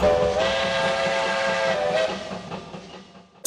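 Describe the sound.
A train's steam-style whistle blows as one steady, loud, harmonic-rich tone held for about three seconds, then trails off, with a brief burst of hiss at the very end.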